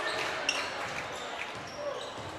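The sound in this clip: Basketball dribbled on the court during a Titans game, a few dull bounces under a steady wash of crowd noise.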